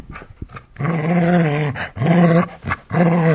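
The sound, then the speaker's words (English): A dog growling playfully over a ball, three sustained low rumbling growls separated by short pauses, preceded by a few small huffs and snorts. “I don't know if you can hear my dog in the background, but he is very upset about the fact that he can't.”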